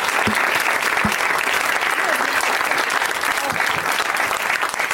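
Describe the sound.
An audience applauds the guests of a show with dense, sustained clapping that stays loud and even throughout.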